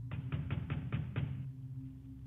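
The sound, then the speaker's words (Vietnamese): Urgent pounding on a door from outside at night: six rapid, evenly spaced thumps in a row, then they stop, leaving a steady low hum underneath. “Tiếng đập cửa ầm ầm ở bên ngoài, mỗi lúc một gấp gáp.”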